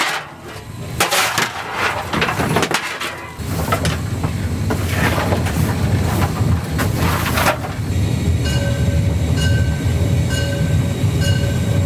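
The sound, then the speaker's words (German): A historic narrow-gauge steam train runs on a line near Moritzburg with a loud, continuous rumble and clatter of the cars, and a steady tonal whine in the later seconds. “in ein historisches Verkehrsmittel, nämlich die Lößnitz-Dampfbahn.”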